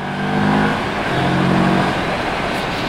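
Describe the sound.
A Moto Morini STR650 motorcycle with a six-speed gearbox accelerates on a cold motorway. The engine note rises in pitch twice over a constant roar of wind noise.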